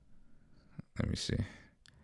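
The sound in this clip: A couple of soft computer mouse clicks tap briefly, the brisk plastic ticks partly mixed with talk.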